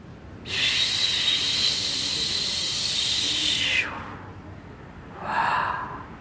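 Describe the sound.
A voice imitates falling snow with a long, steady, breathy hiss lasting a few seconds, then after a pause a shorter, softer exhale.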